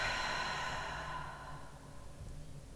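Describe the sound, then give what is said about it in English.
A long, deep breath exhaled through the mouth during a guided relaxation exercise, heard as a soft, breathy rush that fades gradually over nearly three seconds. It is quiet, with no talking. “Taking a deep breath in through the nose. And exhaling through the mouth.”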